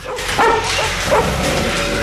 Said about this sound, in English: A monkey and then a dog in separate cages go nuts.